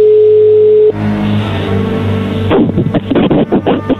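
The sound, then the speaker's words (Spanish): A telephone call being dialed again: a steady telephone tone holds for about a second, then cuts off into line hiss and noise. “Ahí se está marcando otra vez.”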